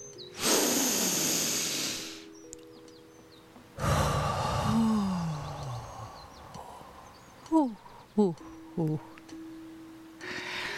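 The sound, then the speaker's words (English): A person takes a deep breath: a long, noisy inhale, then a pause and a slower exhale that trails off into a soft sigh, followed by a few short faint sounds. “Let us start this episode, as we start every episode, by taking a nice deep breath.”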